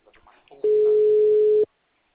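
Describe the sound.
A telephone busy tone sounds once the call hangs up: one loud, steady mid-pitched beep lasting about a second, with brief faint voice-like sounds just before it.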